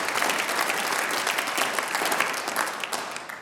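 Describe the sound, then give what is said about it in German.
Audience applause welcomes a Bavarian folk singing group onto the stage. The clapping is thick and continuous at a fairly low level and tapers a little at the end, with no talk over it. “Applaus”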